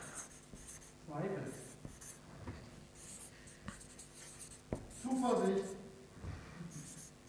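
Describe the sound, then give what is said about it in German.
Handwriting of the German word Trauer: scratchy pen strokes in short bursts with brief pauses, quiet, and talk heard at times. “Ich schreibe mal Trauer, das ist kürzer, aber genau.”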